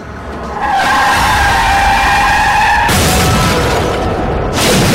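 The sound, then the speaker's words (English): A car skids on a bridge above a river: a long, loud tire screech with steady squealing tones, then an abrupt burst of harsh, broad roaring noise that carries on to the end. “The young Freddy looks up as a car skids on the bridge above and hurtles into the river.”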